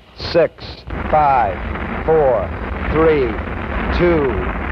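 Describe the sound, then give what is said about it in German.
Apollo 11's rocket engines ignite at launch: a deep, continuous rumbling roar that holds steady, with a man speaking over it throughout. “6, 5, 4, 3, 2, 1, 0. All engine running. Liftoff. We have a liftoff. 32 minutes past the hour. Liftoff on Apollo 11.”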